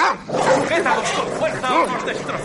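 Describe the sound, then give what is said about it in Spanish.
Dogs bark and yelp aggressively in a dramatic film scene at a royal court, where a furious dog lunges at the king: a few sharp, harsh barks and whimpering yips in quick succession, loud throughout. “¿Qué les pasa a los perros? ¿Por qué están tan agresivos?”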